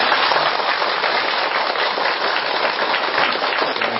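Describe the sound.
Applause from an audience at a Buddhist dharma hall gathering, a dense, steady wash of clapping that continues evenly throughout without a break.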